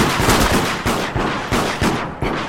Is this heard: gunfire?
yes

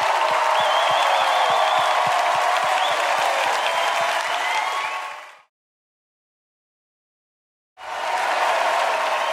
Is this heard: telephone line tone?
no

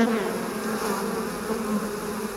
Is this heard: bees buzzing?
yes

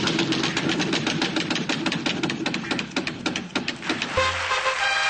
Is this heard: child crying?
no

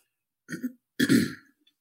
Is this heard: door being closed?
no

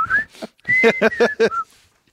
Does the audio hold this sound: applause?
no

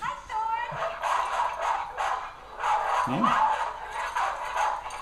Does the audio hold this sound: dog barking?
yes

